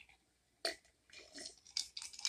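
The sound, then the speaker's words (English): Sipping sounds from a glass bottle of BAWLS soda: a few short, breathy slurps and gulps, with a sharp burst near the start and a cluster of louder sips toward the end. “there's your little sip. And I know there's some people that are like, I can't stand the sipping sound.”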